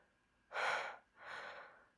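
Heavy breathing of someone catching their breath: two loud, breathy gusts, the first stronger and sharper, the second softer and slightly longer, with no talking.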